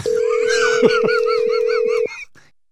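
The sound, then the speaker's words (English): A telephone call tone plays just before the call goes to voicemail: one steady, even pitch holds for about two seconds, then cuts off abruptly and the remaining sound fades away. “Oh, your mom sent you to voicemail. She just hung up on me.”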